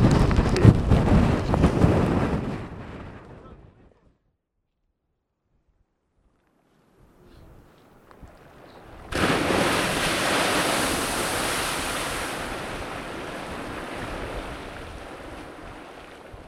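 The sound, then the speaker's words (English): A geyser erupting in Iceland. A hissing roar fades to near silence, a low rumble slowly builds, then a sudden loud rushing gush bursts out and gradually eases. “that was the sound of a geyser erupting”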